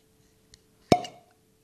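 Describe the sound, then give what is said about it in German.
A cork pops from a newly opened bottle, a single crisp, hollow plop with a short ringing tail, preceded by a faint small click in otherwise quiet surroundings. “Das war schon amtlich. Gutes Ploppen. Gutes Ploppen. Ja, nicht schlecht. Der Sommer ist da und wir machen eine neue Flasche auf.”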